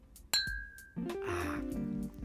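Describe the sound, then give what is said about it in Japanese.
Glasses clink together in a toast: one bright, sharp clink with a short ringing tone, then quieter, muffled low sounds at a soft overall level. “そう、あ、乾杯をね、”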